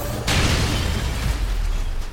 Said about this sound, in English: Power blast!